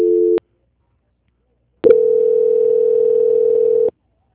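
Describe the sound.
Telephone line tone after a call drops: a brief dual-pitched tone cut short, over a second of silence, then a steady mid-pitched tone holding for about two seconds before stopping.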